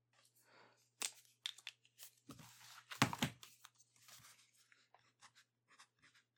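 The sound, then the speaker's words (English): Pen scratching on paper while a phone number is written down, faint irregular strokes and rustles in quick bursts, a few sharper crinkles midway, over a low steady hum. “Very well then. I'll write down my number for you.”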